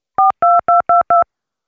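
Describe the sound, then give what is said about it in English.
Touch-tone dialing on a telephone: five crisp DTMF beeps in quick succession, each a short steady two-tone chirp separated by brief gaps, clear and alone with no voices. “Let me just dial him in here, right?”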